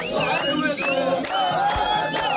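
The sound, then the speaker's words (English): A street crowd in Khan Yunis, gathered near Nasser Hospital, shouts and chants in celebration. Many voices rise and fall together in loud, sustained cries. “Crowds gathering near Nasser Hospital, clapping and cheering.”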